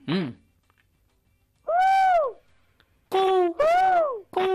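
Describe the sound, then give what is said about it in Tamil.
Voices imitate a peacock's call in several loud, drawn-out wailing cries. Each cry rises and then falls in pitch, with short pauses between them. “பரவாயில்ல, மயில் இப்படித்தான கத்தும்.”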